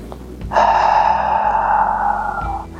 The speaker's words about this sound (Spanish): enche os pulmones de ar solta todo o ar pelo nariz y pela boca. Para esto necesita abrir la boca, relajar la mandíbula y soltar o ar.